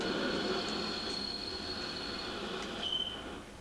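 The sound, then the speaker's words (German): A passenger train slows to a stop with a steady, heavy rolling rumble. Thin, high wheel squeals drift over it and grow sharper near the end as the overall level eases slightly. “Was ist denn nun los? Der Zug hält ja schon wieder.”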